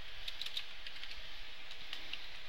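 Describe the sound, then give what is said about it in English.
Computer keyboard typing as code is entered into a Flash actions panel, a steady, continuous run of quick light keystrokes at moderate volume with no talk. “press F9, open the actions panel, and we'll type in my text dot add event listener”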